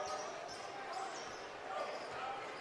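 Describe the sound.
A basketball is dribbled during a game against Rock Island on their home floor. Faint bounces sit under steady crowd noise, with a few brief high squeaks scattered through.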